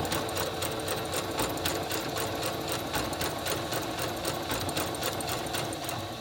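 A sewing machine stitches with bobbin and regular thread, giving off a rapid, even mechanical clatter that runs continuously at a fairly low level, with no talking over it.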